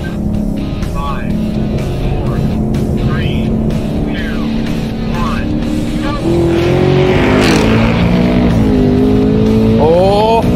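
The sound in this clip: A fast truck's engine accelerating hard in a roll race, with a loud, steady roar throughout that grows stronger midway, where the tone climbs in repeated rising sweeps as it pulls through the gears.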